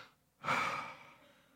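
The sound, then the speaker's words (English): A single breath drawn in by a person, a soft airy hiss. It starts abruptly, then fades slowly over about a second, heard alone. “it's a breath taken in”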